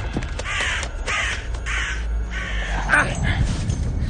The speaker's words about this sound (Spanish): Un cuervo se ha posado sobre el puente.